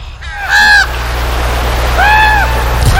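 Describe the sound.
Raven calls: two drawn-out, hoarse, honking cries about a second and a half apart, standing out over a steady low hum.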